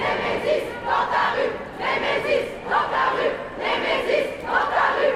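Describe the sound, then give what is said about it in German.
A protest crowd at a French demonstration chants the slogan "Nemesis dans ta rue", repeating the phrase several times in a steady, loud rhythm with brief dips between shouts. “Nemesis dans ta rue, Nemesis in deiner Straße. Dieser Slogan, der klingt wie eine Ansage.”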